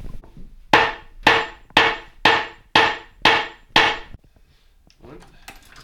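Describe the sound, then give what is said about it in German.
Hammering in a saddler's workshop in a commercial courtyard of small trades: seven sharp, evenly spaced blows, each ringing out briefly before the next. The strikes then stop, leaving a quieter bed of faint workshop noise. “Wir sind jetzt hier in der Werkstatt von der Sattlerei im Gewerbehof und hören hier ein bisschen was von der Arbeit.”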